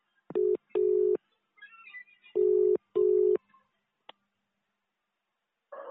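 Telephone keypad tones dial an extension number on an automated phone line: four steady, loud beeps in two pairs with a pause between them, followed by a soft click and a brief burst of noise at the end.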